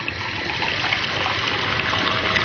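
Water pours into a glass for a drink mixed with lemon, a continuous trickling splash that runs on without a break.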